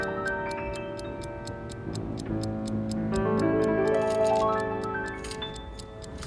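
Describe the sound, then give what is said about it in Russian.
A pocket watch ticks on a table with many steady, evenly spaced ticks. Sustained musical tones play underneath. “Рядом лежат чужие часы. За ними фотография Лизоньки.”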